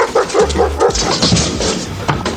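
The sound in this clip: A dog barks in a quick burst of short, yelping barks that cluster together, fairly loud, then fades into softer scuffling noise.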